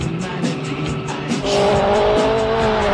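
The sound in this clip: A rally car skids in a racing video game. A pulsing engine drone gives way about halfway to a louder, sustained high tire squeal, with no voices.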